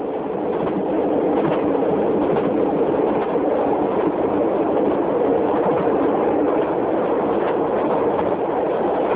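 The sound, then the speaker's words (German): A train rides along rails in Kenya, giving a steady, continuous rumble that stays even in loudness throughout, with no voices. “Zugfahren in Kenia ist ein Erlebnis.”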